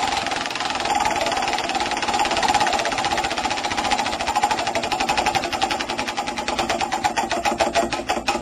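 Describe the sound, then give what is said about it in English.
Ratchet clatter of a prize wheel being spun: a long run of rapid, even mechanical clicks that become more separated near the end, with no voices. “Let's spin the wheel and find out who won.”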